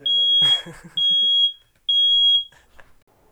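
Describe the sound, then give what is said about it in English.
A fire alarm going off with three loud, piercing high-pitched beeps of steady tone, each about half a second long and separated by short gaps. “That's our fire alarm.”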